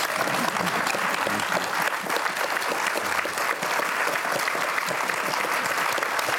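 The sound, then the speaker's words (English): Audience applause for a couple being thanked, a loud, dense, sustained clapping that holds steady for the whole stretch. “I'd like this audience, all of you, just to really give a great hand of appreciation to Peter and Anne.”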